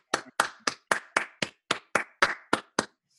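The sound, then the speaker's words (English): Hand clapping as a round of applause: eleven crisp, evenly spaced claps in a steady rhythm, each sharp and distinct, alone with silence between them. “So I think those people, you know, give themselves a round of applause as well”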